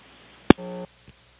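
A telephone busy tone after a dropped call: a sharp click, then short steady beeps that switch on and off in a regular cadence.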